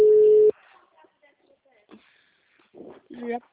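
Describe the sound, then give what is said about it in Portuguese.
A steady telephone tone sounds loudly for about half a second as a call is placed, followed by faint rustling and a short burst of voice. “Vou, mas eu vou fazer a ligação, vou fazer a contagem aqui.”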